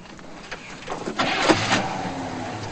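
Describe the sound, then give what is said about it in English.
A car engine starts with the ignition: a rising, whirring crank builds over about a second, then settles into a steady low engine hum. “then starts the ignition”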